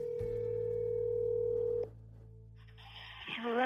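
A steady telephone dial tone holds loud and unbroken for over a second, then cuts off. After a short quiet gap, other higher telephone tones start.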